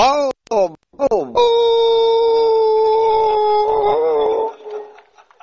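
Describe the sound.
A voice imitates a dog: a few short, yelping barks break out first, then a long, sustained, loud howl holds steady before it trails off.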